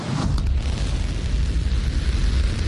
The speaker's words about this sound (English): The flight featured a new version of the rocket crucial to company plans.